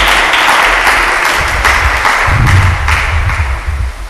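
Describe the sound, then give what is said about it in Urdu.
An audience applauds at a Christian sermon. The dense, loud clatter of many hands lasts throughout and eases slightly toward the end. “اس کے لیے ذرا زوردار تالیاں ہونی چاہیے۔”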